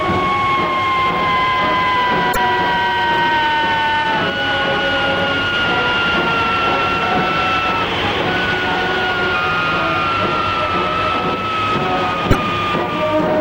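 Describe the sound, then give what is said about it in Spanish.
A steady, whining engine drone from an aircraft taxiing before its first test flight. Sustained high tones drift slightly lower over a constant rumble, with no voices. “El aparato ya está listo para el carreteo previo al vuelo inicial.”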